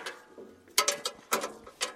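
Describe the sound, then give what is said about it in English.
Metallic clanks and ratcheting clicks as a father and son rework a seeding machine in a farmyard near Ritzville in wheat country, irregular mechanical bursts with a few sharper, louder knocks in the second half. “A father and son are reworking a seeding machine in a farmyard near Ritzville.”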